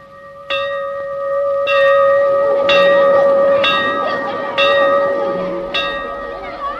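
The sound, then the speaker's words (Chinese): A school bell rings to start class, sounding as a series of about six ringing strikes whose bright metallic tone lingers and overlaps between hits at a fairly steady pace. “上课铃响了，学生们都跑向自己的教室”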